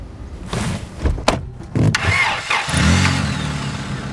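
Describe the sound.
A car engine starts as the car pulls away from a family house. A few knocks and clunks come first, then the engine catches and settles into a steady, loud low rumble that runs to the end.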